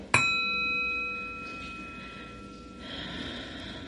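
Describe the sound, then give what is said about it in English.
A single meditation bell ding opens a guided meditation. It is one bright strike, followed by clear, steady ringing tones that slowly fade over several seconds. “Let's start with a ding.”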